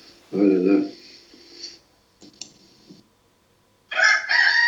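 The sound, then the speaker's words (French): A rooster crows loudly in a long, strained call, then quiet scratchy sounds follow and a second loud crow begins at the end. “Ouais, même le coq, voilà. Il est content.”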